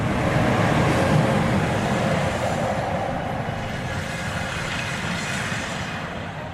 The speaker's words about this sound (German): der die norwegische Hafenstadt Narvik mit der 300 Kilometer entfernten nordschwedischen Bergbaumetropole Kiruna verbindet, fährt ein und hält an.